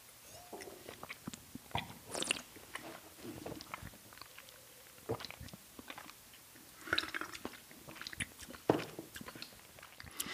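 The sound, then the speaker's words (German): Sipping a drink during a tasting: quiet wet slurps, swishes and small mouth clicks and squishes scattered over about ten seconds, with no talk. “ich probiere jetzt mal einen Schluck”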